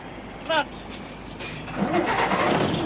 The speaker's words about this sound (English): He starts the engine. All right, come on. As Miller waves him back, Mackay stalls the engine.